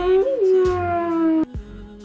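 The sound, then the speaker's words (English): A ghost howling sound effect: a loud, sustained harmonic howl that wavers in pitch near the start, then breaks off abruptly and continues as a lower, quieter tone. “It just says ghost howling.”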